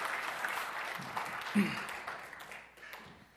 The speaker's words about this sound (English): we should just give the Lord a round of applause for providing for Grace and Ethan.